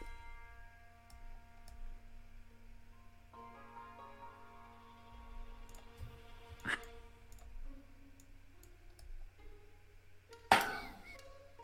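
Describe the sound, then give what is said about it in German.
Dice rolled during a tabletop game, heard as a couple of sharp clicks, the last a brief louder clatter, over a low steady background hum. “dann würfel mal auf uh, Change the Game, bitte.”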